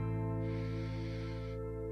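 A soft, airy inhale during a guided meditation, lasting about a second over a steady low hum that continues before and after it.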